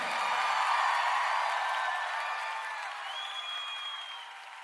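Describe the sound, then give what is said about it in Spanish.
A church audience applauds during praise, its clapping blending with raised voices and slowly fading toward the end. “Aplauda a su Señor. Te alabamos, Señor.”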